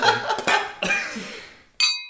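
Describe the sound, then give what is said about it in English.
A single bright, ringing clink of glasses in a toast comes near the end, after a few louder breathy or voiced noises and a short lull. “Let's do a clink. Come on. Oh, we're all going to clink together.”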